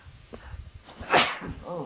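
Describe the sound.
A man sneezes once, a short sharp burst of breath standing out above a background of people talking quietly.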